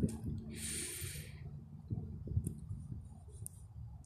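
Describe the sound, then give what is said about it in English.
One breath drawn in during a guided breathing exercise, a soft airy hiss lasting about a second near the start, then quiet over faint low tones. “I invite you to breathe with me. In.”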